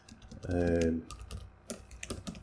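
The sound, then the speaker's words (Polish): Computer keyboard keys clatter as a secret Skype password is typed, giving a quick run of light, irregular clicks after a brief sustained tone at the start. “Tak, to co słyszeliście, to jest wpisywanie hasła do Skype'a, tajnego bardzo oczywiście.”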